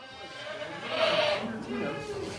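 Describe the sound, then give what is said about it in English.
Alpine and Saanen dairy goats bleat in a barn during morning milking, their drawn-out, overlapping cries rising and falling while a voice talks over them. “Lainey Fondiller describes the scene in her Westfield barn as organized mayhem. The 30 or so Alpine and Sonnen dairy goats, her ladies as she calls them, get quite excited about the morning milking.”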